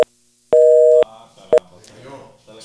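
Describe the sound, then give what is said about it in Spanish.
Telephone tones after a dropped call: a brief beep, a longer steady tone of about half a second, then another short beep, all loud and clean, separated by quieter stretches. “Se le cayó la llamada. Devuélvamela.”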